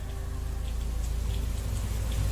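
Steady rain falls in a graveyard, a continuous dense hiss with soft scattered droplet taps over a low rumble, alone with no voices.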